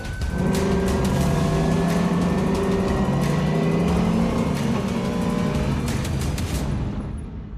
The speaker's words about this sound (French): C'est vraiment une caisse de circuit. Hein. Ça fait un bruit assourdissant, ça freine très fort.